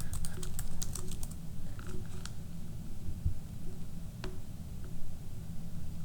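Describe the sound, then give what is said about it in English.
Typing on a computer keyboard: quick bursts of crisp key clicks, densest at the start, with a few scattered taps later, over a steady low hum. “oh, this keyboard is different than my laptop.”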